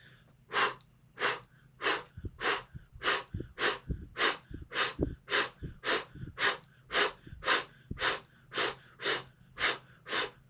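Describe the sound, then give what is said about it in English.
A person breathes during a breathing exercise, taking many even, rhythmic breaths roughly every half second. Each breath is an airy, breathy rush, steady in pace and fairly soft, with no talk. “Go back to normal breath. We start again.”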